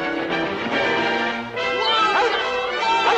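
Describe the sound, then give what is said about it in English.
A yellow dog barks and yips in short, bright, sharp bursts at irregular intervals while chasing and spooking a mule, with its voice rising and falling in pitch throughout. “The dog follows, spooking the mule.”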